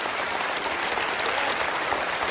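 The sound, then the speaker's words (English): A round of applause from an audience: many hands clap in a dense, uniform wash of sound that stays steady and fairly soft from start to finish. “Can we give it an appropriate round of applause?”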